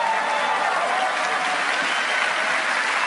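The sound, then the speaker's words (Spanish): An audience applauds with dense, continuous clapping at a steady, fairly loud level for the whole three seconds. No single claps stand out from the mass of sound. “Si me van a aplaudir, apláudanme bien,”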